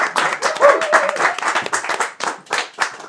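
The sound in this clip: An audience applauds a speaker being introduced: a dense, continuous patter of many hands clapping, with a voice briefly audible through it.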